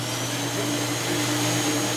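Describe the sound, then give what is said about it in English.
Steady mechanical whir of a shoe scrubbing machine at a gravitational wave observatory, a continuous droning hum with constant tonal lines and no pauses, heard alone. “So this is the sound of a shoe scrubbing machine at the Laser Interferometer Gravitational Wave Observatory.”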